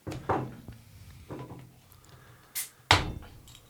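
Opening a cold, dry-hopped pilsner beer brewed with noble hops Saphir and Saaz: a few light handling knocks, then a short hiss and a sharp clack of the bottle being opened.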